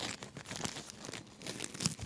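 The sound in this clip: Wrapping paper crinkles and tears as a heavily taped Christmas present is unwrapped: a busy stream of rustling crackles with a few sharper rips, moderately loud, with no talk.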